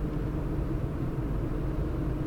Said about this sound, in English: we're cruising along and we're running on used vegetable oil.